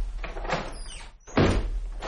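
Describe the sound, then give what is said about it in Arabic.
A door is shut: about a second of scraping, sliding rumble, then a short hush and a heavy thud with a sustained rumbling tail. “اذهب ولا تضيع الوقت يا مهاب، وأغلق وراك الباب.”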